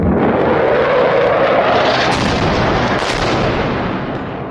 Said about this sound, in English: here's the sound of Russian planes. This is shortly after the surprise intervention by Moscow. Russian planes dropping bombs east of Damascus in October,